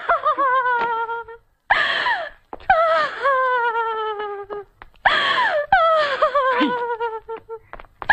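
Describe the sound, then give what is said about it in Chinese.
A woman wails and cries during a heated family quarrel, in several long, loud bursts of high, quavering sobbing, each drawn-out cry sliding and breaking before a brief gasp and the next wail. “你看你在这儿有哭有闹的，叫外人听见了多不好。”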